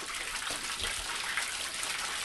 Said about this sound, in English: Water is flowing out of the well and across her lawn.